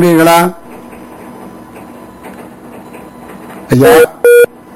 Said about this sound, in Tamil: தடைபட்டுவிட்டது உங்களுடைய அந்த அழைப்பு. என்ன நடந்தது?